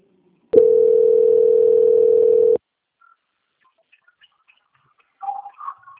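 A single steady telephone tone sounds while a bank call is transferred. It holds at a constant mid pitch for about two seconds, then stops abruptly, followed by near silence and a few brief faint sounds near the end.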